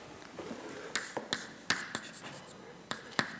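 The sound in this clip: Writing on a board during a lecture: many short, scratchy strokes and taps in an irregular rhythm, with crisp bright attacks over a quiet hiss.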